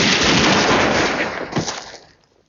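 Gunfire from a firing squad, one loud, dense volley of overlapping shots that rolls on briefly, then dies away into near silence.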